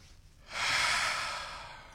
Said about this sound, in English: Deep breaths.